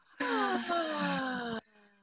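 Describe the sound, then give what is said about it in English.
A long, voiced exhale during a breathing exercise, released with sound like a moan-like sigh. It holds steady for over a second with a slightly falling pitch, then cuts off abruptly. “Inhale. Exhale with sound.”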